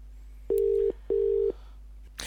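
Telephone tones sound while a call is dialed: two equal, steady mid-pitched tones separated by a short gap, followed by a brief burst of noise at the end.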